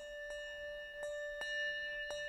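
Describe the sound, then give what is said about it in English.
A hand bell struck four times at an uneven pace, each strike bright and metallic over a steady, sustained ringing tone at one pitch. “So what's really cool about the bells, though, is that you can't play the bells by yourself. I can't play a whole song. Like if I tried to play Jesus Loves Me with this bell,”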